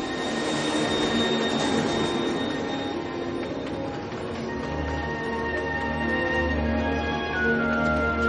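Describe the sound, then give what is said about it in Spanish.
A train carriage travels at night with a steady rumble and rattle, overlaid by sustained whining tones, continuous throughout, and heavier low rumbling swells in the second half. “Tom viaja en el vagón de un tren.”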